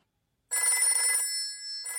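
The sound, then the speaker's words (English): Telephone ringing with a bright, trilling bell. It starts after a short silence, fades briefly and then rings again. “Oh, I know. Let's phone Grandpa.”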